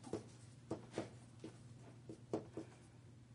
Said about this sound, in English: And I might just go ahead and write them down.